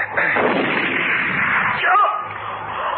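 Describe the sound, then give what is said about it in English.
A gunshot fired during a tense armed confrontation: a loud, broad blast that stands out over sustained rumbling noise, with a voice present. “You shot me.”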